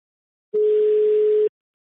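A telephone call tone while ringing a listener who won a giveaway. One loud, steady mid-pitched beep lasts about a second and starts and stops abruptly, alone in silence.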